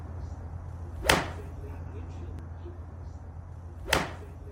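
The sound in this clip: A recorded golf swing: two sharp, whip-like swishes stand out clearly, well spaced apart, over a low steady background hum.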